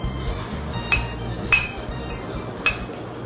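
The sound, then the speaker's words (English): A spoon mixes sweetener and jelly powder in a bowl, giving a few light, bright clinks over a steady low rustle of stirring. “Hold the bowl, I'll hold the spoon. So we're going to mix that two together. Go ahead and mix it.”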